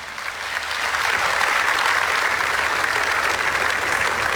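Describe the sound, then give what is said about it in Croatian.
Audience applause in the town square of Požega at a public award vote: clapping builds quickly over the first second, then holds as a loud, even, continuous patter. “Dajte jedan veliki pljesak za čitavu ovu ekipu.”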